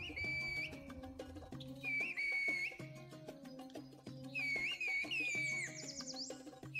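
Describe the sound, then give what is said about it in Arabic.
Whistled language from the village of Kuşköy, produced by whistling with the tongue: high, piercing tones that slide and warble in two main bursts of phrases, with lower tonal sounds continuing underneath. “بينتجوا صوت عالي النبرة، أما الصفير باللسان فقط فبيعطي نبرة عالية أكثر.”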